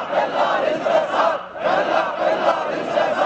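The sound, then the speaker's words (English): A crowd of faithful at a sheikh's sermon in Baghdad cheers and chants loudly in rhythmic waves, with a brief dip halfway through before the roar resumes. “No more corruption, cheered the faithful.”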